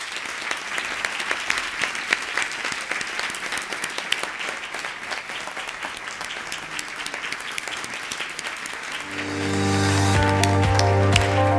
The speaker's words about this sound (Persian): عرفان با مادرش تشویق کنیم بیاد بالا